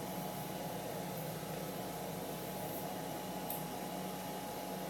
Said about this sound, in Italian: quindi aspettiamo adesso che il robot termini la cottura di questo cibo molto difficile, cottura delle uova.